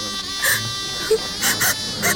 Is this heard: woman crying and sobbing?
yes

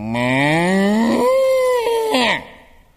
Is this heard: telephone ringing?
no

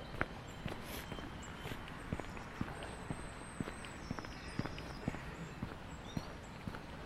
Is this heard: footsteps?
yes

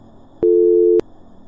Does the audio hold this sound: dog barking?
no

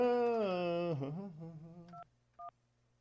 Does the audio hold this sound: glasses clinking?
no

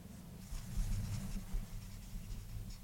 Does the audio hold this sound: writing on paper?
yes

